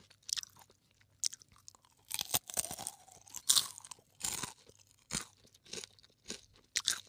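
Crunchy chewing of a sticky rice skewer with nuts: many irregular, crisp crackling bites and munches in uneven bursts, with brief quiet gaps between them and no talking.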